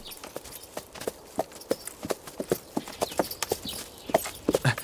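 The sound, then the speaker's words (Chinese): Horses being led out of a stable, hooves clip-clopping in many uneven, overlapping strikes at a steady walking pace. “那个把我爹的坐骑牵过来。 是 在这个厩里。 哎， 牵过来。 把我那小红也牵过去。”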